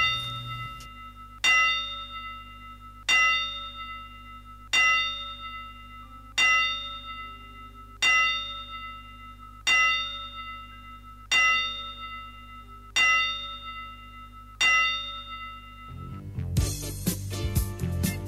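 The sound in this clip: A ten-bell salute tolled as a boxing tribute: a single bell struck at an even, slow pace about every second and a half, each stroke ringing out and decaying. A louder burst of noise cuts in at the end.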